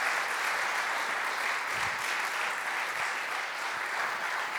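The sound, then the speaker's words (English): A church audience applauds to welcome a visiting family, with sustained, evenly dense clapping from a crowd that stays at a steady level from start to finish. “I'd love for you to give them a warm Newberry Park First Christian Church welcome.”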